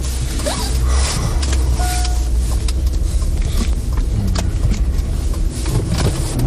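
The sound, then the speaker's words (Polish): A car drives slowly and pulls in to park, its low engine hum and road rumble running steadily under scattered creaks and small mechanical knocks. “Dobrze, to ja teraz tu zajeżdżam i zaparkuję.”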